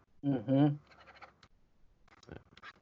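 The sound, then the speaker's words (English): Pen scribbling on paper: faint, scratchy strokes in short bursts that follow a brief spoken voice at the start, soft and intermittent throughout. “What are you writing? How do you know I'm writing? I heard the pen. Oh. I'm actually just scribbling because I can't see”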